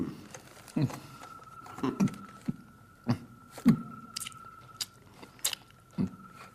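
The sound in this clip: Chewing and biting of food during a meal at a royal spread, with a series of soft crunchy bites and chews at irregular intervals, moderately quiet over a low background.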